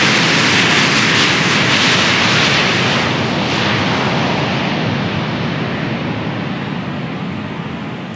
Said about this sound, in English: It barely gets a tail on the ground, and it'll get airborne fairly quick.